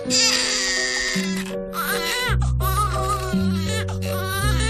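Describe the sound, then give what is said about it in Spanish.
A baby cries in a trailer for the film Tully, one of three children of a mother who runs the household, with wavering, strained wails running across the whole stretch over a steady tonal backing. “Este que llora es uno de los tres hijos de Marlo, una mujer que vive por y para su casa porque su marido viaja más que Willy Fogg”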